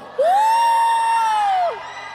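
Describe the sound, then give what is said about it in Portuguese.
A church audience shouts back in response, one long sustained whooping cry that rises slightly, holds steady, then drops away at the end, loud and clear. “Quem estava no último encontro aí, dá um grito.”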